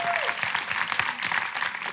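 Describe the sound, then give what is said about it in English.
Audience applause during a political speech by a head of administration: dense, steady hand clapping that holds at an even level throughout, with a voice briefly audible at the start. “Yes, give him a hand clap.”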